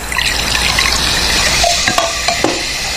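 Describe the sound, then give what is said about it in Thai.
S99 liquor and soda are poured into a drink, a steady splashing and fizzing of liquid, followed by a few sharp clinks toward the end. “เติม S99 ด้วยมาเบาๆนะฮะแล้วก็เติมโซดาด้วยเขย่า”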